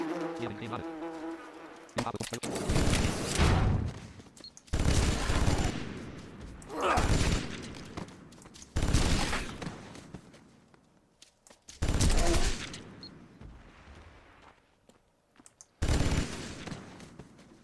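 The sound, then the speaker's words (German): Rapid bursts of rotary Vulkan cannon fire in a video game come as six separate buzzing volleys, each a second or so long, with short quiet gaps between them. “Wahrscheinlich, weil ich gerade mit der Vulkan geschossen habe.”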